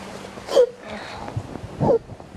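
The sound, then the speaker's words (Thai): A child sobbing quietly, with two short catching sobs separated by soft, breathy whimpering in between. “ลูกสะอื้น”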